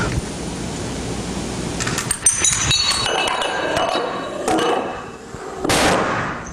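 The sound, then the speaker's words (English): A chain of 13 growing dominoes, the largest about 100 pounds and over a meter tall, topples in a run of sharp clacks and knocks that end in one louder, heavier impact. “Boom. That was 13 dominoes.”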